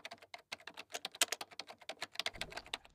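Typing on a computer keyboard while writing: many quick, light key clicks in an uneven rhythm, faint and without talk.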